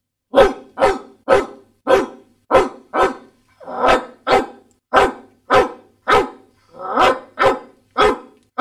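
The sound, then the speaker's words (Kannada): A new Doberman at a neighbour's house barks in a steady series of many loud, sharp barks at an even rhythm with short gaps, with no voices. “ನಮ್ಮ ಮನೆಯ ಪಕ್ಕದ ಮನೆಯಲ್ಲಿ ಒಂದು ಹೊಸ ಡಾಬರ್ ನಾಯಿ ತಂದಿದ್ದಾರೆ. ಅದು ನಾವು ಹೋದ ತಕ್ಷಣ”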